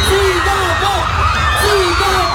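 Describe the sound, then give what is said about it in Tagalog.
A street crowd shouts and cheers at a motorcade in Puerto Princesa City. It is a continuous, loud wash of many voices, with high yells and whoops rising above it. “Umalingaw-ngaw sa kalsada ang sigawan ng mga kapamilyang Palawenyos nang makita ang hari ng aksyon sa ating henerasyon na si Coco Martin”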